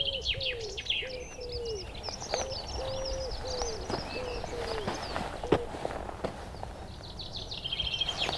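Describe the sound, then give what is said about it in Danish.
Wood pigeons coo in many soft, low, evenly spaced hooting notes, while smaller birds chirp and twitter at a higher pitch over a faint outdoor background, with one sharp tap partway through. “Ringduerne kurer.”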